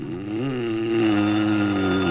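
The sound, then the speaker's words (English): A telephone rings with a loud, steady buzzing tone rich in layered harmonics, sustained without a break and heard alone with no voices. “Where's the phone, Blanche?”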